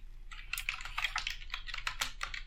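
Fingers typing on a computer keyboard produce a quick, irregular run of many crisp clicks, heard alone at a moderate level.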